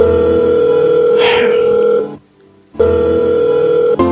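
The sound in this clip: A telephone rings while a call to a friend goes through: a steady, buzzing ring tone with strong harmonics, broken by one short silent gap before it resumes, with a brief click near the end.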